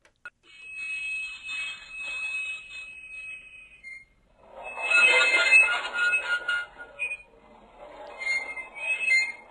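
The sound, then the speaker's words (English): Train wheels scraping on the tracks give a piercing, sustained metallic squeal of high, steady tones, then a harsher grinding burst and further uneven squeals, heard alone without voices. “I believe that is a train scraping on the tracks.”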